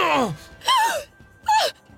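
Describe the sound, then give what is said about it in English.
A woman gasping as a sword strikes in a medieval-style drama: three breathy vocal bursts, each sliding downward in pitch, the latter two sharper and louder, with short gaps between them. “Sieglinde gasped as Hunding's sword hit home, slashing a deep red ribbon across Siegmund's chest.”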